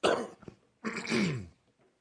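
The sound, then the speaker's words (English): Two coughs come from an adult giving a slide presentation. There is a short harsh burst, a pause, then a longer, rougher cough, with no talking. “And I am coughing a little bit, which I really dislike.”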